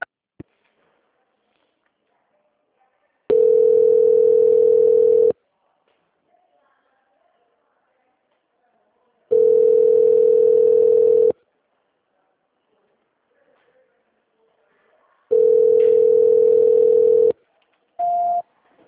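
Telephone tones sound during a call transfer: three long, steady mid-pitched beeps, each about two seconds, evenly spaced by silent gaps, then one brief higher beep at the end.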